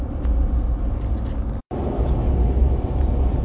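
Steady road rumble from a car driving down an interstate, a dense low drone with a brief moment of silence partway through before the even noise resumes.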